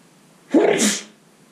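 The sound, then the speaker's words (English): A single loud sneeze bursts out of near silence, with a sharp voiced onset followed by a breathy, hissing release that fades quickly. “we don't edit out sneezes here. If you're not familiar, we keep sneezes in.”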